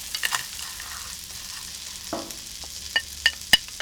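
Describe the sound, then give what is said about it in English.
Arborio rice, 350 grams, stirred in a frying pan: a steady soft scraping and rustle with a faint sizzle beneath, then a few sharper clicks of the utensil against the pan toward the end. “And now we are ready for the arborio rice. 350 grams. Stir it well.”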